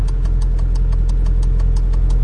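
A car engine runs with a steady low hum and a regular ticking pulse repeating several times a second, even in loudness throughout.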